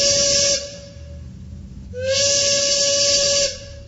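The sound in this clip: Train sound effect of two loud, sustained steam-whistle blasts with airy hiss. A short, quieter gap separates the blasts, and the second blast is longer than the first.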